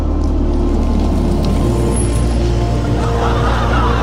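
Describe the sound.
Engine noise from a vehicle pulling up to pick someone up. It is a loud, steady low rumble that continues without a break.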